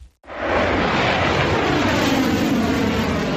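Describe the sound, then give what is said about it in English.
A missile launches into the sky from a Ukrainian air defence unit. A brief silence is followed by an abrupt, loud, steady roar that holds for three seconds. “A missile shoots into the sky, leaving a long white tail behind.”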